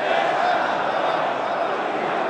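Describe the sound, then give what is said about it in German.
Thousands of people cheer for Ali Khamenei inside the Imam Khomeini Mosque in Tehran, a steady, dense roar of the crowd that holds evenly without pause. “In der Imam Khomeini-Moschee in Teheran jubeln ihm tausende Menschen zu.”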